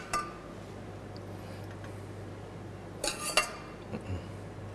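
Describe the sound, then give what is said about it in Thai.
Pork is stirred with its own juices in a pot, a utensil clinking against the pot a few times, once near the start and in a short cluster later, faint over a low steady hum. “แล้วก็คนให้เข้ากันครับ”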